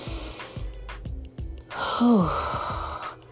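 A person takes a deep, audible breath: a breathy inhale swells into a long exhale that carries a short, falling voiced sigh before fading into soft breathing.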